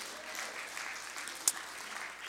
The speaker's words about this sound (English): And if that's how you feel, clap your hands unto the Lord.